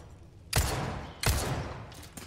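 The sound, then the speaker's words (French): Gunshots in a video game: two loud, sharp reports with short decaying tails about two-thirds of a second apart, followed by a couple of fainter quick shots. “Voilà, j'ai tué les deux pour rien, quatre balles pour rien.”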